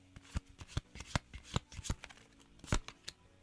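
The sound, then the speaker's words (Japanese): Playing cards are shuffled in many quick, crisp riffling snaps and slaps, uneven in rhythm. The shuffling is fairly faint and heard alone, without talk. “カードを切る音がね出ておりますけどね”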